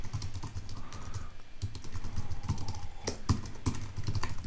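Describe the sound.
Typing on a computer keyboard while writing a tweet: quick, irregular key clicks continue throughout at a fairly low level, with a few sharper taps standing out and no talking.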